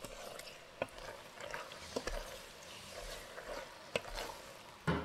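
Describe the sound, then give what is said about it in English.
Pasta being stirred into a creamy miso mushroom sauce in a pan: a faint, soft wet shuffling with a few sharper clicks of the utensil against the pan. “we're going to add in our pasta. And give it a quick stir so every strand of pasta is coated in that creamy miso mushroom sauce.”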